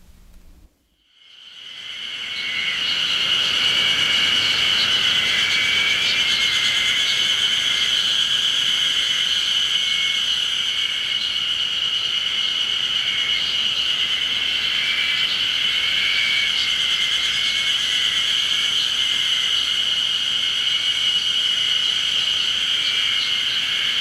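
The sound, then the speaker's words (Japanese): Ezo harusemi cicadas singing in a Hokkaido forest: a dense, continuous high-pitched chorus of buzzing, croaking calls that starts after a brief quiet moment and holds steady and fairly loud throughout. “これ北海道のセミの鳴いてる音、 エゾハルゼミの鳴く音ですね。”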